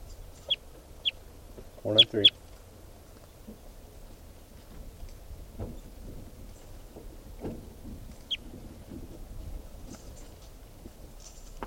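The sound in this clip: A bird calling in a few short, sharp, high-pitched chirps, scattered unevenly with a close pair near the start and a lone call later, over a low, steady background murmur.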